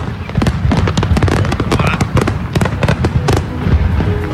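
Explosions go off near a house that is in flames: a rapid, loud string of sharp bangs, pops and crackles overlapping one another, like a fireworks finale, with no pause throughout.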